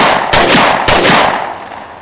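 Two loud gunshot blasts in quick succession, each a sharp crack trailing into a long rumbling decay that fades out.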